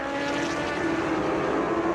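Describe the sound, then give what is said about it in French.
Engine drone of a Superstock racing motorcycle, the category leader, during a 24-hour endurance race: a loud, continuous, steady tone held for two seconds without a break. “Allez, la 52 en action actuellement. Cette moto qui est en tête de la catégorie Superstock, pilotée par Tsutsuta Nakashima”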